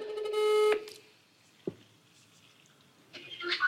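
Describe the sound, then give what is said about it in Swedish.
A telephone ringback tone sounds while a call to a friend connects: a steady tone burst, a quiet gap of over two seconds with a faint click, then the next ring tone beginning. “Får jag bara ringa upp min kompis som är så duktig på att naila den här looken? Mm, vi ser om hon svarar.”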